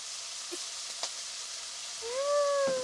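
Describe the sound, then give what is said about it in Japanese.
Buttery food sizzles in a frying pan as soy sauce is added: a steady, bright frying hiss that swells slightly louder toward the end. “いい感じにバターが絡んできたかな。最後は醤油を加えて、”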